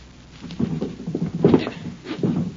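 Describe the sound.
A stuck bottom drawer of a bureau being pulled, giving three muffled, rattling jerks separated by short pauses.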